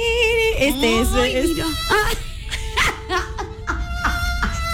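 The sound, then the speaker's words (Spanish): A comic crying sound effect of exaggerated sobbing: wavering, high-pitched whimpering wails that break into choppy, sniffling bursts. “Sad song. Sad song. Efecto. Efecto de llorar. Efecto. De lloriqueo total.”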